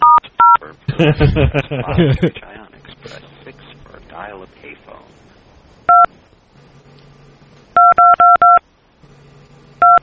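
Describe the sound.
Telephone keypad tones are pressed to play a tune on an automated phone menu: two quick beeps, a single beep, then a fast run of four, all sharp and loud. A voice talks briefly near the start.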